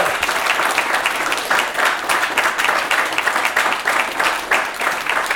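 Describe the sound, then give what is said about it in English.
Sustained applause from an audience at the close of a live onstage conversation, a dense, steady clatter of many hands that stays loud throughout without a pause. “Make some noise for Joe Freshgoods and DJ Clark Kent.”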